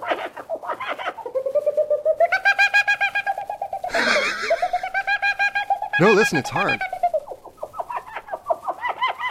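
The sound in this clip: A person imitates bird calls by voice, producing a long series of bright whistled and warbling notes with quick trills and chirps. A brief spoken remark comes near the end.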